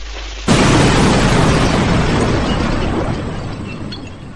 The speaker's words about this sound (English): Watch out! Fire in the hole!